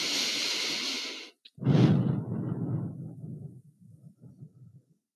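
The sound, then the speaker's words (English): Slow, deep breathing with long exhales in a guided self-soothing exercise: a drawn-out airy breath, a short pause, then a fuller, lower breath tapering into faint, softer breaths. “See how this feels in your body to slow your breath down and increase the exhale. Keep it going.”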